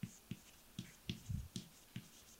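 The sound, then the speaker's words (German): Handwriting, with faint pen strokes as a note is added in brackets beneath earlier text: a series of soft taps and brief scratches in an irregular rhythm, very quiet, with no talking. “Also ich schreibe das mal irgendwie in Klammern darunter.”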